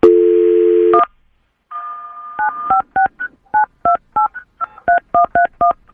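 A telephone dial tone is followed by a quick series of short, bright DTMF keypad beeps as a number is dialed for a prank call on a morning radio show. The tones play alone with no talk.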